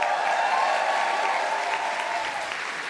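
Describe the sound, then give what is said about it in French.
Applause and cheering from a live evening audience gathered for a show, dense steady clapping with crowd noise, loud and sustained without a break. “faites du bruit pour vous ici ce soir”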